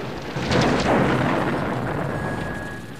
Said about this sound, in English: a red laser beam that smashes a truck, knocking it onto its side in a massive explosion